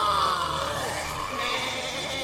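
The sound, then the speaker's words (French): Wild beasts crying in a humid tropical jungle: a dense, continuous chorus of loud, overlapping shrill cries and calls, with no voices present. “Au loin, dans les baobabs, les cris des fauves résonnent.”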